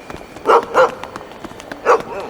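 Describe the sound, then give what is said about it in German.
A dog barks three times at a train about to depart: two short, sharp barks in quick succession, then a pause before a third, all over a quiet background. “wo kommt denn der Hund auf einmal her? Oh, keine Sorge, wir tun dir nichts. Kein Grund, uns anzubellen.”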